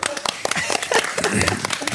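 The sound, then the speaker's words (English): A talk-show audience gives a guest a round of applause. Brisk, scattered claps are mixed with voices and stay fairly loud across the short stretch. “Let's give Keegan a round of applause.”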